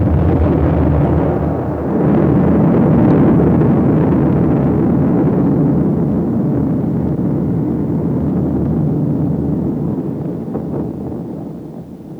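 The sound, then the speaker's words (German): A deep, sustained roar from an atomic bomb explosion, a dense low rumble that swells just before two seconds and holds heavy and steady for a long stretch before easing slightly at the end. “Was war denn das um Himmels Willen? Das war die Explosion einer Atombombe.”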